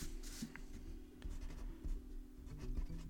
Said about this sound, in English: so let's write that down.